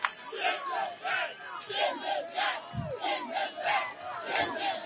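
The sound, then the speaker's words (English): A crowd at a Bronx rally chants a short phrase in unison, over and over in a steady, loud rhythm of many repeated shouts. “They're chanting, send them back. A Hispanic and Black audience in the Bronx is chanting, send them back.”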